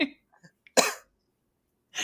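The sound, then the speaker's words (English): Coughing from choking on a drink, a few sharp, harsh coughs separated by silence. “oh no i'm choking on my drink but also tears”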